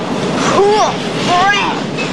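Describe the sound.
A train rides along the rails with a steady, loud rumble. Short voice-like tones rise above the noise in two places.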